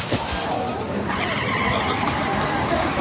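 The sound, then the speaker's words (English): A car skids on a busy street: a sustained, loud rush of tire and road noise that fills the whole clip without a break. “In fact, I'm in more danger of dying just by standing next to this busy street.”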